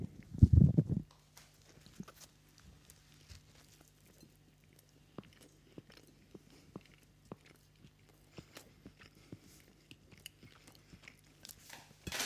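Biting into factory-made Buletten meatballs, deep-fried in fat with a firm skin: a loud crunchy bite at the start, then many faint, scattered chewing clicks.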